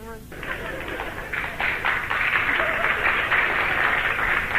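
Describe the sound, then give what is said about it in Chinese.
Sparse applause from an audience, heard as a steady, even patter of clapping that begins after a brief opening moment and holds at a fairly constant level to the end. “那个鼓掌的人不多呀，鼓掌的人都是南方人。”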